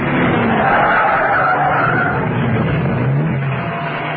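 Tyres skid as a car brakes hard and swerves off a road, a loud, unbroken rushing screech over a low engine rumble that lasts the whole stretch with no voices.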